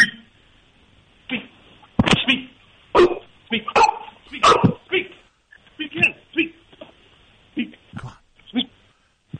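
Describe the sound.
A pit bull dog barks on a spoken 'speak' command, giving several sharp, loud barks and yips scattered among a person's encouraging talk.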